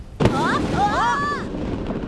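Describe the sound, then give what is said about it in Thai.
A cartoon firework explodes with a single sharp, loud bang that is over at once. A voice follows it. “อ้โหลูกนี้ระเบิดตรงต้นกล้าเลย”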